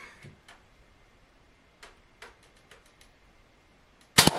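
A gunshot in a video game: one sharp, loud blast at the very end, after a few faint clicks.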